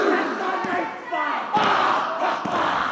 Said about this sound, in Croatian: Tradicionalni ratni poklič odjekuje cijelim kazalištem u Sidneju. Snažni udarci nogama o pod.